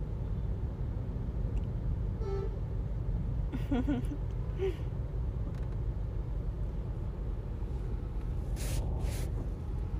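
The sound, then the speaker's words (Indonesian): Steady low road rumble inside a moving car, a constant dense drone throughout with faint brief voices now and then. “saya masih di mobil kak masih guys masih di mobil nih”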